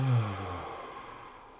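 A deep breath during a guided breathing exercise. It starts with a brief low voiced sigh, then a soft, breathy rush of air slowly fades out. The whole breath is faint and heard alone.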